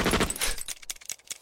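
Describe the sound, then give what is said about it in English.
A Tommy gun emptying its entire magazine in an animated comedy: a dense, rapid burst of loud fire, then a few scattered sharp clicks and cracks as it tails off. “Bender finds a Tommy gun and unloads its entire magazine in delight.”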